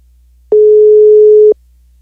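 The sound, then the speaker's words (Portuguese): A telephone ringing tone while a call is being placed: a single steady low-pitched beep lasting about one second, heard alone with silence before and after. “Vamos lá, tá chamando.”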